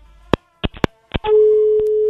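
A telephone busy tone follows a caller's dropped line. Several sharp clicks and knocks come first, then a loud, steady mid-pitched tone holds to the end.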